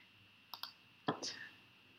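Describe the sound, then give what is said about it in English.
Computer mouse clicking a checkbox on a form, a few soft, sharp clicks: two quick ones close together, then a slightly louder click followed by a faint trailing sound, all very quiet. “You choose the proper box for your race, your height, weight, eye color, and hair color. And you just click in the boxes. I'll click gray for me.”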